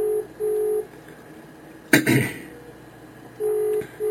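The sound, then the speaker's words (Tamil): Telephone ringback for an incoming call being connected: pairs of steady beeping tones, a sharp burst of clatter midway like a handset being picked up, then the paired tones sounding again. “இது முன்னிற தமிழ் வானொலி 24 மணி நேர தமிழ் சேவையில் அழைப்பு வந்து கொண்டிருக்கிறது, எடுக்கலாம் என்றார். அவர் எடுக்கின்றார்.”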